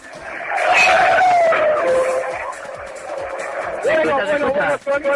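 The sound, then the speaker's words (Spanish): Fernando Alonso's racing car accelerating past during an exhibition run: a loud, high engine whine that sweeps by and drops in pitch, then a second burst of revving near the end. “Bueno, el sonido acelerador vuelve a pasar. Es posible que pueda alcanzar en la tercera vuelta sus 300 kilómetros por hora.”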